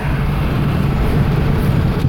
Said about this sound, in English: So we're driving.